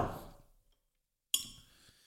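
A beer glass being handled before pouring an alcohol-free hoppy ale gives one sharp, bright clink that rings briefly. A soft dull knock comes before it, and the whole clip is faint.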